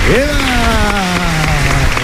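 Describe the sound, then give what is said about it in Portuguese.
Church audience applause for the young people, a loud, steady wash of clapping under a held tonal sound that rises briefly at the start and then stays level. “Uma salva de palmas para eles, por favor. Viva os nossos jovens!”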